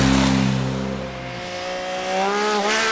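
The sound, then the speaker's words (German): Loud car engines roar as drivers race through a village at over 100 km/h into bends, overtaking. The engine note is steady, drops sharply, then climbs again toward the end. “Man hört es ja jetzt auch gerade, also die fahren sehr laut durch den Ort”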